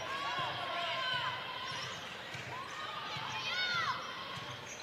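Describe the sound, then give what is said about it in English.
A basketball is dribbled in a women's game: steady, rhythmic bounces of moderate loudness under continuous crowd noise and high squeaks. “And kind of just standing there dribbling right at the moment, trying to get everybody set.”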